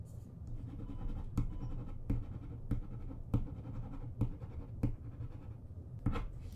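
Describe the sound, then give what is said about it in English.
A pen writing a note on paper gives a faint, steady scratching, broken by a series of sharper strokes at fairly even intervals, with no talk. “Let me write you a note so you can return to class.”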